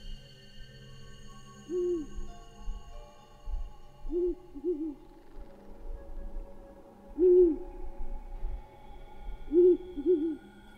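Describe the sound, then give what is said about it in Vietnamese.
Owl perched on a low tree branch hooting mournfully: several short, low hoots, some in pairs, spaced out over a faint low rumble. “con cú kêu lên mấy tiếng thê thiết”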